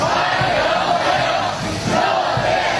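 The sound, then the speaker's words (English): Massed crowd shouting in greeting as a US president arrives in China, a loud, dense, continuous roar of many voices that holds steady throughout with only slight swells. “But President Trump arriving in communist China and being greeted like he's the president of the United States.”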